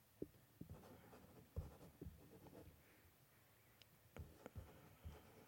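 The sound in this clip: A pen scratches out letters on paper in a string of brief, dry, scratchy strokes at an irregular pace, fairly faint and with no talking.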